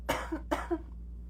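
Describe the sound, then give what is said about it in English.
A person gives two abrupt, loud coughs, each with a quick follow-up burst, and then it goes quiet. “My apologies. Sorry, like jump scare cough there.”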